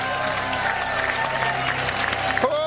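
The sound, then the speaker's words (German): Applause from a charismatic church worship conference audience: a dense, steady clatter of many hands that holds at an even, loud level for the whole stretch. “Komm, lass uns mal Jesus, dem Täufer, dem Heiligen Geist und mit Feuer mal einen kräftigen Applaus geben.”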